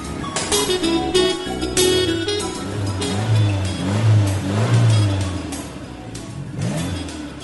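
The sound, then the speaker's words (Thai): A car engine revs and pulls away as the car starts moving in slow traffic. A mid-pitched, droning motor swells and eases in waves throughout, loud and steady, with no talk. “ขอบคุณพระเจ้ารถข้างหน้ากำลังเริ่มขยับแล้ว”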